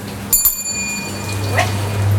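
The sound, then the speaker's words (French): A single bell rings with a bright, clear metallic tone whose overtones hang and slowly fade over a second or two, above a low steady hum and faint background noise. “Alors, on sonne déjà.”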